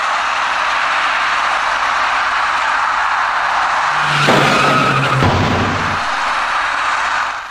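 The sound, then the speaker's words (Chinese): Tires skid as a white minibus turning right collides with a cyclist at a junction under a bridge. A short screech of about a second rises out of steady, loud traffic noise, and the roar continues afterward. “一辆右转弯的白色小客与一位骑车人发生了相撞事故。我们把画面换一个角度后，请大家再看一遍。”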